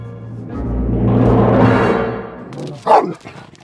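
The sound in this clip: A dog gives a short, sharp burst of barking near the end, after a broad, swelling rush of noise that rises and fades. No one talks.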